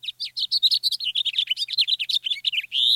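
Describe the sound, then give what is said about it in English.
A house finch singing in a city, a rapid, sweet warble of many high, varied chirps that runs without pause and ends on a longer, buzzier note; loud and heard alone. “The songs of two common finches provide a steady soundtrack in cities across North America. There's the house finch”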